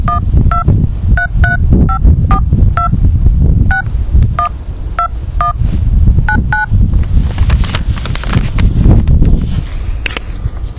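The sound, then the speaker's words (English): Telephone keypad tones dialing a number: many short, evenly spaced beeps of varying pitch in quick succession, heard over a loud, steady throbbing hum. “Please enter the telephone number you wish to dial now, or press star.”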